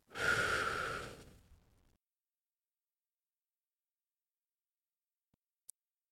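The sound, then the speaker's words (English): A slow breath during a guided breathing exercise: one airy, rushing breath, loud at the start and fading out over about two seconds, then silence broken only by a faint click near the end. “And slowly inhale. And slowly exhale.”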